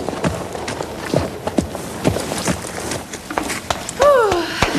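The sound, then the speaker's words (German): Horse hooves strike the ground in many quick irregular thuds as a dressage mare is ridden out of the arena after halting and saluting before the judges. “So pariert sie durch, bringt Josefina vor den Prüfern zum Stehen und verabschiedet sich mit einem Gruß, bevor sie vom Platz reitet.”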